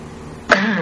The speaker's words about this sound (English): I just came in the door and I'm kind of coughing.